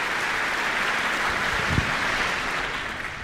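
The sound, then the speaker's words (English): A concert audience applauds the orchestra with dense, steady clapping that stays level throughout. “Applause for Jim and you, getting the orchestra on their feet.”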